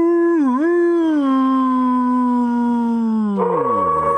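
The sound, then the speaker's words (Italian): A wolf howls once in a long, loud, sustained tone that wavers briefly near the start, holds steady, then slides downward in pitch at the end. “È il lupo. Il lupo del martedì.”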